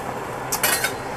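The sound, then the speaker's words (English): Chicken pieces being flipped on an oven tray with a spatula: a brief metallic scrape and clink of a few quick contacts over faint background hiss. “so let's get underneath this chicken, and we're going to start flipping.”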